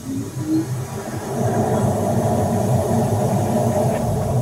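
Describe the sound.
A car engine powers up in first gear with a loud, dense rumbling drone. It starts somewhat quieter and uneven, then swells after about a second and a half into a steady, sustained roar.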